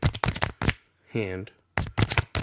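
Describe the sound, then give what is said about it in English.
Small prostitution advertising cards being flicked: quick bursts of sharp, snapping clicks, with a short voice between the bursts. “But what they do is, is they flick these little prostitution cards. Like so,”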